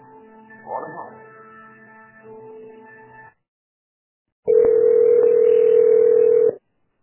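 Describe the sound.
A telephone line tone sounds while a call to a Citroën dealership is transferred to the sales desk. Faint talk comes first, then a short silence, then one loud, steady, mid-pitched tone held for about two seconds.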